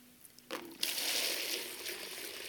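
Water poured into a bucket: after a brief quiet moment a splashing rush begins, swells quickly, then continues as a steady flow that eases slightly toward the end.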